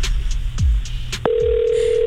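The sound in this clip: Telephone tone while calling someone: a few faint clicks and short blips, then a steady, continuous mid-pitched tone starts abruptly about halfway through and holds unbroken to the end.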